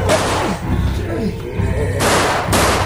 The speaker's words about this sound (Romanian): A tras vânătorul că l-a confundat cu o capră neagră și a pierdut echilibrul.